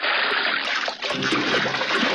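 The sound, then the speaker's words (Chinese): Running water rushes and splashes over salt-rubbed beef lung as it is rinsed clean, a steady, fairly quiet wash with small splatters throughout. “搓过盐的牛肺用清水冲洗后还要在热水中焯洗”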